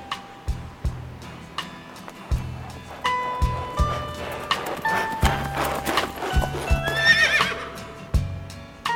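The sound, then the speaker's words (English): A horse-drawn carriage passes by, its hooves clip-clopping in a steady rhythm. Partway through, the horse lets out a whinny as the hoofbeats continue. “Just then, a large carriage passed by.”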